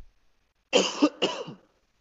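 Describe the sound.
Two players clear their throats in quick succession, each a short, rough, raspy burst. A brief gap separates them, with silence around both.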